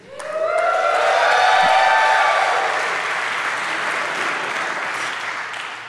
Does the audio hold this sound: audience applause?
yes